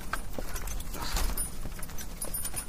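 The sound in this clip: Hooves clip-clop from a horse-drawn cart over a steady low rumble, the hoofbeats soft and irregular at a moderate level, with no voices.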